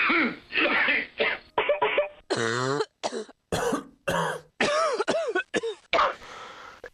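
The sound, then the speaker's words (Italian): A person with flu coughs over and over in many harsh, partly voiced bursts separated by short gaps. The bursts are loud, and their pitch wavers from one to the next. “con queste tosse astenersi dall'andare a teatro sicuramente, forse anche da uscire di casa. Se il polmone parla in questo modo,”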